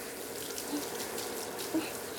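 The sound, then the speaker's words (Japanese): A shower sprays water onto a head during a hair rinse, held close with strong pressure for a water massage. It makes a steady, even rushing hiss with no talk. “水流マッサージもしたいから、シャンプーの時より近く強くで、”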